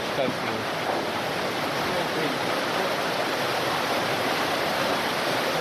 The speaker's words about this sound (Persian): در اینجا ما با دریای ایرپین نزدیک می شویم.